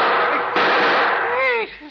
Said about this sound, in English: See what I tell you. All the time shooting at Maxie, someone.